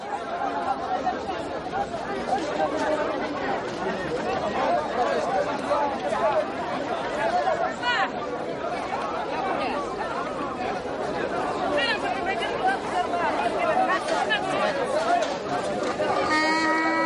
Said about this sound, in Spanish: El hermano Jean-Pierre atiende un puesto en un mercado callejero. Tiene bolsas de especias, tarros con frutas y tarros con miel.